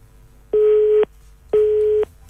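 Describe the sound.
A telephone busy tone after a radio caller's line dropped: two loud, identical mid-pitched beeps, each about half a second long, separated by a gap of similar length over a faint hum.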